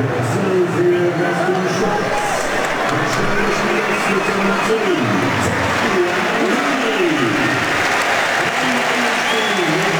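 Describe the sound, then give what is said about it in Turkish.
A football crowd applauds during a Switzerland match as a substituted player leaves the pitch. The clapping is dense and continuous under a commentator's talk. “Alkışlar Botelli'ye.”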